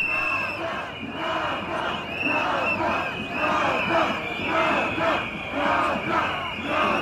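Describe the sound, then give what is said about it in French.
A crowd at a street demonstration in Sarajevo's old town, demanding justice for the victims of the Jablanica landslide, chants in steady rhythmic waves. The many voices rise and fall in repeated loud surges. “Cette manifestation que l'on entend se déployer dans la vieille ville de Sarajevo demande justice pour les victimes du glissement de terrain de Jablanica.”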